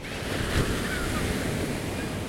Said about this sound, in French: Finalement, une vague nous rejette sur le rivage.